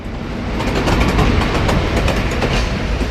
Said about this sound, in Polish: odjazd. No to czas ruszać w drogę. Na razie jeszcze po staremu. Z toru 35 przy peronie 7.